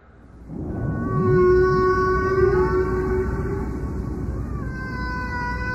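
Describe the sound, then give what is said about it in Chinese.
Humpback whale song: long, sustained tonal moans rich in harmonics, slowly shifting in pitch and overlapping in drawn-out phrases, loud and continuous throughout. “你现在听到的是一张专属于座头鲸的流行唱片，它有乐句，有副歌，还会押韵。”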